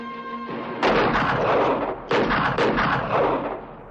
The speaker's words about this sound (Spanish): O'Reilly dispara desde el tejado. Luis entra en otra casa y la atraviesa disparando.